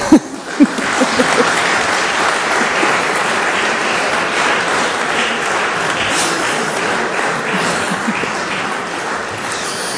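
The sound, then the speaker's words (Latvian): Applause in the Latvian parliament after the budget package has been reviewed: a dense, steady wash of many hands clapping together, holding an even, fairly loud level for the whole stretch. “Un kur aplausi?”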